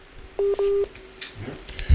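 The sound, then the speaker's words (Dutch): Telephone dialing tones while calling someone back: two short, clear electronic beeps in quick succession, followed by faint scattered noise. “Oké, we proberen hem gewoon nog eens terug te bellen.”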